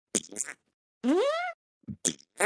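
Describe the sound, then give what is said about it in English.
Downloaded fart sound effect: a single squeaky, wet blast that climbs in pitch over about half a second, with a few short bursts of other sound before and after it. “I scrolled through so many downloadable fart noises.”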